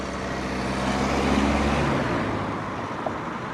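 A car drives along a road with a broad, low rumble of engine and tyres. The noise swells slightly midway and then eases a little, with no voices heard.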